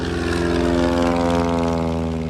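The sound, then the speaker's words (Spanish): Propeller aircraft engines at an air show in Yapel drone loudly and steadily, a rich buzzing roar with strong low harmonics that holds for the whole clip. “Motores encendidos, adrenalina, velocidad y maniobras que desafían los límites.”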